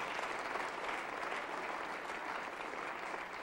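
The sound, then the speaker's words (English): A church audience clapping hands in dense, continuous applause, steady and even throughout, fairly faint, with no voices standing out. “Come on, clap your hand.”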